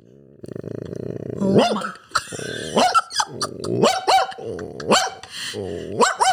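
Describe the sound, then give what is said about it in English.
A person imitates a dog, starting with a low buzzing growl and then letting out several gruff barks separated by short gaps. “So I got a talent and I know how to bark like a dog.”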